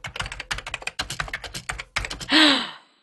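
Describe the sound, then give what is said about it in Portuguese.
Rapid typing on a computer keyboard during a Google search comes in several quick bursts of crisp, clattering keystrokes with short pauses between them. A single louder, smoother sound closes the run. “Eu vou digitar no Google, só um pouquinho.”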